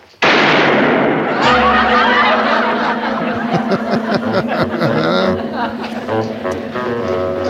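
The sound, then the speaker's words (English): A gunshot goes off as Barney fires his freshly loaded pistol: one sharp, loud bang at the very start. It is followed by a long stretch of talking and chuckling. “So he loaded his gun up, and, well, we all know what happens when Barney loads his gun up. So all the state police, luckily, had already left the location, but here's what we heard.”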